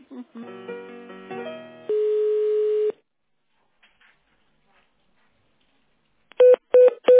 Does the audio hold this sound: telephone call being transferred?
yes

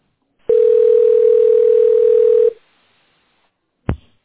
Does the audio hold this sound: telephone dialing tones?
yes

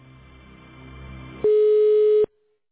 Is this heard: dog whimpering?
no

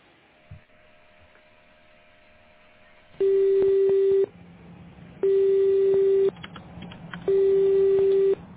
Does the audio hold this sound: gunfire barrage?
no

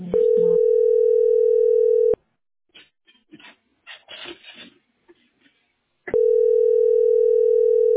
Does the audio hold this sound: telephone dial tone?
yes

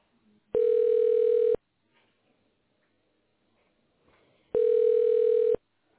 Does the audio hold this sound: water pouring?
no

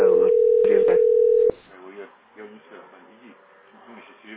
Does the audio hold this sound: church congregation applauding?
no

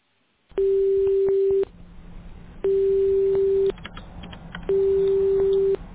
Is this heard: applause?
no

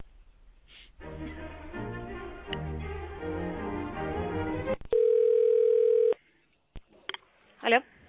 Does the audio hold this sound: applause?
no

